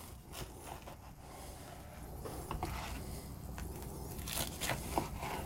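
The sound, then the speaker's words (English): A knife cuts a steak quesadilla into quarters, giving several soft scraping, crunching strokes over a steady background hiss. “So now we just cut it. Take a knife. And I like to cut mine into fours.”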